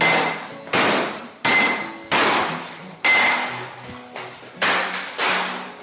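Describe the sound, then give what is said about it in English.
A hammer smashes automated textile machinery in a series of heavy metallic blows at a fairly steady pace, each clanging strike ringing out and fading before the next lands. “Enoch made them, Enoch shall break them. It was time to smash.”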